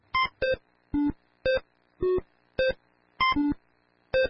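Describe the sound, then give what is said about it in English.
Electronic beeps from Breakout, the 1980s video game, played by an AI system. Nine short, clean tones at several different pitches sound in an uneven rhythm, one pair almost back to back. “This is the sound of Breakout, a 1980s computer game. It's being played by an artificial intelligence system.”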